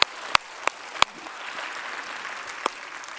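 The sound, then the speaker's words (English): A church audience at a Christmas service claps in a soft, continuous patter, with about five sharper individual claps standing out above the wash. “Let's put our hands together and greet one another.”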